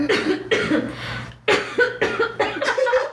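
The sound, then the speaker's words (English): Throat clearing from someone with mucus in the throat: a series of rough, cough-like bursts, separated by short pauses, some with a raspy voiced tone. “I have mucus. So can you hear my throat clearing up though?”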